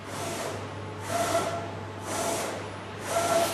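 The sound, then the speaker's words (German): Water spray washes out an exposed screen-printing stencil for textile printing, heard as four hissing bursts that swell and fade in a steady rhythm over a constant low hum. “Erstmal das Bild freiwaschen.”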